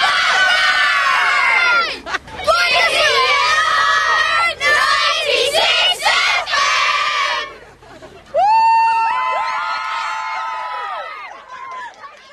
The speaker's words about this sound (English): Is this how it's always like for you when you come home? There's just marching bands and screaming fans.